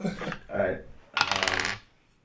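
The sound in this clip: Dice rolled during a tabletop role-playing game, giving a short burst of rapid, bright clicking rattles that lasts about half a second and then stops.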